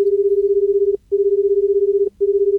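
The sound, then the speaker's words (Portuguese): A steady, mid-pitched telephone tone sounds as a call is placed, running in long stretches broken by two short gaps, with no voices. “Deixa eu ligar pro capitão.”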